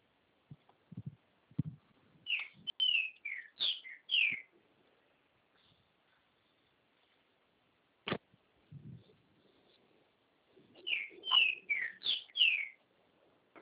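Bird song in two bursts of bright, high chirps and quick warbled notes, with a long quiet gap between them broken by a single sharp click; no voices.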